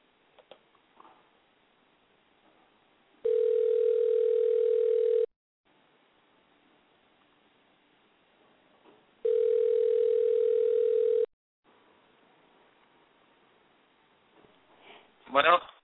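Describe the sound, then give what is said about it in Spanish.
Ringback tone of an outgoing telephone call: two long, steady buzzing tones, each about two seconds, separated by a silent pause of roughly four seconds, with faint scattered sounds between them and a brief louder burst at the end. “vamos a tratar de hacer contacto una vez más con el Titer Vázquez, a ver si nos contesta esta vez.”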